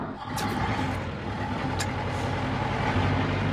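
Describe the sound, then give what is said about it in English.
A large Land Rover drives at night on a remote road: a steady, loud, low engine and road rumble runs throughout with little change, and faint high clicks appear a few times. “It's something like 2 a.m. and I'm driving George the Farmer's massive Land Rover in the middle of nowhere.”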